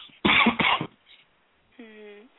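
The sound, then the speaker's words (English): Two rough, closely spaced coughs from a person on a telephone line, followed by a short, faint hum. “Besides this little cough I have.”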